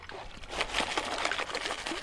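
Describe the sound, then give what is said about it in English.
Water sloshes and swirls in a gold pan as dirt is washed out during gold panning, a steady, noisy wash of liquid that runs through the whole clip without clear breaks. “Right now, we're panning for gold. See how the dirt's coming up now, you guys?”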